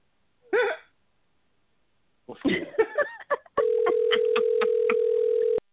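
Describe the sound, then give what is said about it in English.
Ringback tone of an unanswered phone call: a single steady mid-pitched tone lasting about two seconds, preceded by a few brief vocal sounds. “I'm glad she ain't answering the phone. Hey, man, ain't nobody answering the phone for this shit.”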